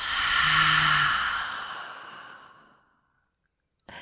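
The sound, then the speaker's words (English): A deep breath exhaled through an open mouth during a guided New Year's intention-setting ceremony: one long, loud, breathy rush of air that gradually fades away over about three seconds, followed by silence. “Okay, now it is time for us to take a huge breath in. Open the mouth and let it out.”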